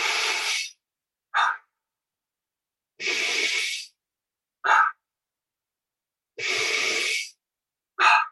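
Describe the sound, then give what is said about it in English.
Deep demonstration breaths for breathwork come in three even cycles, each a long, airy, noisy breath followed by a short sharp one, with brief gaps between. The breathing is loud and heard alone. “the breaths that we would use would have no pauses whatsoever. So they would look and feel like this.”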